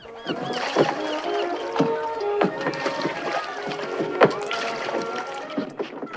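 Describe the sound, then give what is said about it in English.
Oars splash and churn the water as a boat is rowed up alongside a wooden jetty, a steady run of strokes with scattered knocks and drips. “rows the boat up alongside a wooden jetty.”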